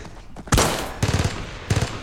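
Gunfire in a wartime fight at a house: three loud, sharp blasts, each trailing off in a brief ringing decay, with quieter noise between them.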